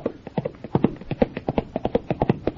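A horse with a rider gallops on a timed run, its hooves drumming rapid, rhythmic beats at a steady pace. The hoofbeats are many and moderately loud, with no voices.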